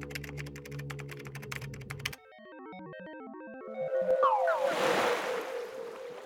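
Rapid typing on a computer keyboard clatters for about two seconds, then stops. A stepped sequence of electronic tones follows, ending in a loud whooshing surge.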